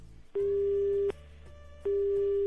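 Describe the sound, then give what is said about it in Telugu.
Telephone busy signal after a dropped call: steady, evenly pitched electronic beeps with a silent gap between them, two heard, the second cut off, over a faint low hum. No voices. “Call cut అయిపోయినట్టుందే.”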